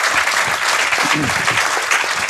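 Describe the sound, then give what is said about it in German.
Audience applause at a tech presentation: dense, continuous clapping fills the whole clip at a fairly even, loud level with no clear breaks. “Muss ja alle mal klatschen.”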